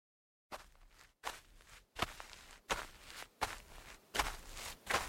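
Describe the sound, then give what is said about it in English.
Footsteps walk into a militia tent area: a steady series of roughly seven moderately loud, crunchy steps at an even walking pace, with no voices. “I walked into the militia tent area to see Eli, Ryan”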